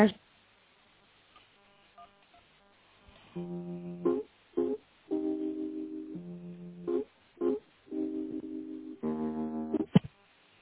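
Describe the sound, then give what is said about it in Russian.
Telephone keypad tones dialing an extension number over a phone line: several sustained beeps of differing pitch in an uneven sequence, separated by brief gaps, with a few short blips in between. “Если вы знаете добавочный номер сотрудника, наберите его в тоновом режиме.”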